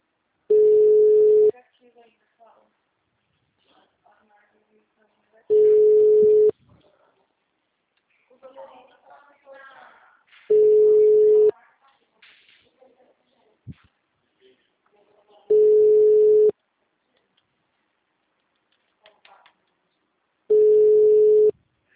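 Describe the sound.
Telephone tones while a call is redialed: five steady single-pitch beeps, each about a second long, repeating evenly about five seconds apart, with faint scattered noises in the quiet gaps between them.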